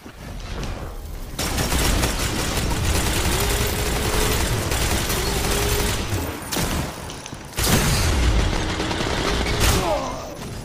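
Sustained gunfire in a video game shooter match with zone captures, a dense, loud barrage of rapid shots and bursts that runs almost continuously, dipping briefly twice before resuming.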